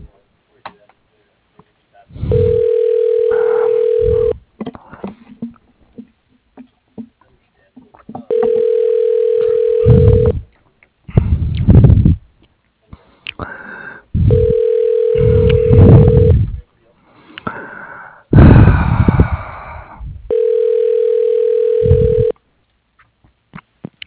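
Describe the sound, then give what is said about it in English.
A phone line rings while a call is transferred to an auto repair shop's voicemail: four evenly spaced steady ringing tones, each about two seconds long and loud, with other busier sounds filling the gaps between them. “he has his voicemail. Let me just transfer you over that, okay?”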